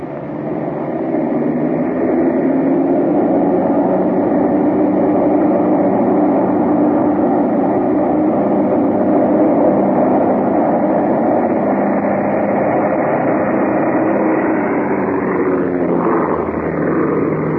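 A train rumbling past, recorded in 1976, forms a dense, continuous roar that stays loud and steady for the whole stretch, with no voices over it.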